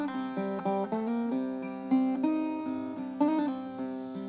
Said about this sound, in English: But this instrument I'm holding in my hand right now that we're about to play is an acoustic dulcimer, and it has the gourd as a resonator, and it sounds like this.